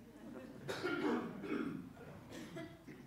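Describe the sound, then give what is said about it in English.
A man coughs a few times, rough and throaty bursts spread across a few seconds, with a hoarse, croaky quality and no speech between them. “I'm going to have a good cough, excuse me.”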